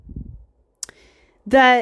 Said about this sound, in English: let me click on this. I'm gonna use my blog as for notes.